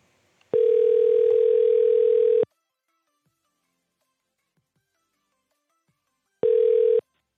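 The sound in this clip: A telephone ringback tone sounds while calling a company back: a steady, mid-pitched electronic tone lasting about two seconds, then silence, then a second tone that is cut short.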